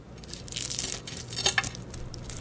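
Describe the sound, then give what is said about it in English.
A knife cuts through fried eggs with crispy edges, straight off the induction heat, giving faint, irregular crackles and crunches that cluster in small bursts and peak briefly near the middle. “And listen to this crisp as I cut through.”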